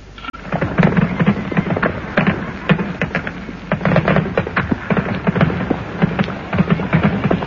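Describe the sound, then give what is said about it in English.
A comedy sound effect of bird-scaring mixture exploding around the cornices of St. Martin's to drive off starlings: a dense, continuous crackle of many sharp bangs and pops, like fireworks, sustained throughout. “And all around the cornices of St. Martin's, the bird mixture is exploding, and the starlings are being driven away”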